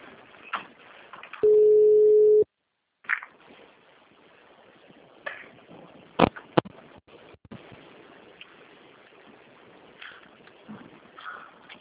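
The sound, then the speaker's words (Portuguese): A single steady electronic ringing tone lasts about a second as a phone call is placed to add someone to a group call. Quiet, low background noise surrounds it. “Deixa eu já ligar para ela para incluir.”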